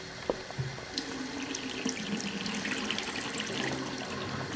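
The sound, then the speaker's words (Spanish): Tap water runs steadily into a sink while tomatoes are washed, a fairly faint, continuous rushing hiss with a few small splashes and clicks and no talking. “Lavo los tomates inmediatamente.”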